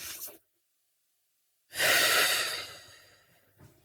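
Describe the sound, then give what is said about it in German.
Slow breathing during a guided breathing exercise: the soft tail of one breath, a silent pause, then a long, airy breath that fades gradually, with a faint breath at the end. “Und dann atme nochmal.”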